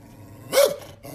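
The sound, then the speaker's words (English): An aggressive, unusually large dachshund gives a single loud, sharp bark over low growling. “That thing is aggressive. Oh, he is aggressive. It's the biggest wiener dog I've ever seen.”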